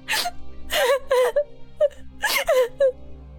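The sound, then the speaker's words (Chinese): A girl breaks down crying, shut in a dark cage and afraid she is being trafficked; her wailing sobs come in many high, wavering bursts separated by brief catches of breath. “女孩不敢再说下去，崩溃地哭了起来。”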